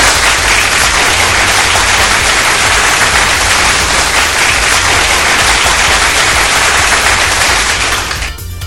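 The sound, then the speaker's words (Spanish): Loud applause as a sound effect: a dense, continuous roar of clapping that holds steady and thick for several seconds, then thins slightly at the very end. “Es un fuerte aplauso aquí.”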